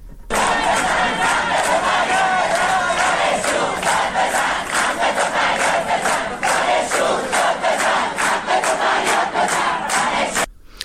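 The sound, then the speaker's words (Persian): A student protest crowd at a morning university rally chants slogans in loud, rhythmic shouted bursts. Many voices call together in a steady beat that continues throughout and cuts off at the end. “یکی از دانشگاه‌های آزاد اصفهان، دانشگاه خراسان، تجمع اعتراضی در اول صبح داشتن. صدای اونها رو بشنویم.”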